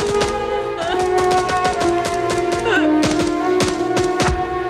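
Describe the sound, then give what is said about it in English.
Machine-gun fire sprayed across a riverbank in a Vietnam War film: a long run of sharp, irregular cracking bursts that stays loud for the whole stretch, with no voices. “Nassarv sprays machine gun fire across the riverbank, hitting two men who are sheltering behind trees.”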